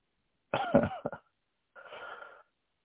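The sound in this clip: Throat clearing to bring up phlegm: a harsh, raspy burst with a few quick catches, then after a short pause a second breathy, scraping rasp, with no talk over it.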